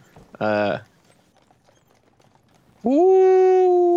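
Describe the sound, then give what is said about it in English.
A human voice imitates a howl in the woods: first a short tonal cry, then, after a pause, a long howl that rises in pitch and holds loudly to the end. “It's a howling in the woods.”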